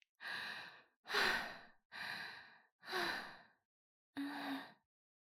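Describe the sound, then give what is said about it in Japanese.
Five deep, sighing breaths are taken to calm down from embarrassment, each a breathy rush of air. The first four come in a steady rhythm and the fifth follows a short pause, quiet, with no talk. “まずは落ち着かないと。深呼吸、深呼吸。”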